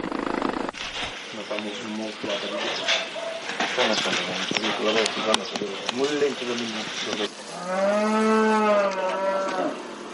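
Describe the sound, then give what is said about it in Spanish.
A cow mooing while giving birth lets out a long, low, wavering moo at the end, after a stretch of people talking. “después el parto de una vaca”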